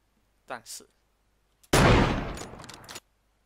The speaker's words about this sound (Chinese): 瞄准，然后开枪，开枪。